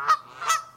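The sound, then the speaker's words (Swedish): Canada geese honk twice in quick succession, each a short, nasal, brassy call, the second slightly louder than the first. “kanadagäss som för övrigt låter så här”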